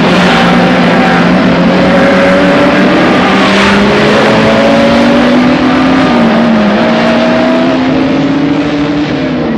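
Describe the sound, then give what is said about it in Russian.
Race cars roar off the start line in a loud, continuous engine whine that climbs steadily in pitch, briefly dips partway through, then keeps rising, with no voices. “Судья дает отмашку флагом, спортсмены мчатся к автомобилю. Автомобили срываются с места, и большую блестящую полосу изо всех сил несутся вперед.”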